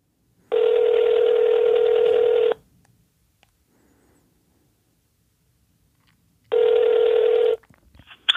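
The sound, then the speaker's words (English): A telephone call being placed: two long, steady buzzing ring tones with silence between them, followed by faint clicks at the end. “let's give him a call.”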